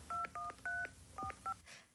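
A caller phoning a radio show dials a touch-tone telephone. Five short dual-tone beeps play in an uneven rhythm, quiet and on their own.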